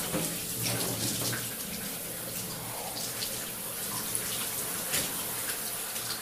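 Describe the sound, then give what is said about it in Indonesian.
Water runs steadily from a tap while someone rinses their body in a bath, a constant soft rush with faint splashes and no talking. “Ah, segarnya, ucapku sambil membilas badanku.”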